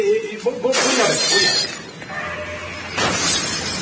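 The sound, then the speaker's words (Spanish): A table is knocked over and a vase breaks, heard as loud, sharp shattering crashes with noisy clatter between the bursts. “Mesa derribada, jarrón roto.”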